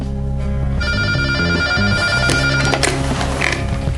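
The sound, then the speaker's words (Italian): A telephone rings at night: steady, loud electronic ringing of layered bright tones over a bed of shifting lower notes, continuous throughout, with no voices. “Quella stessa notte squillò il telefono.”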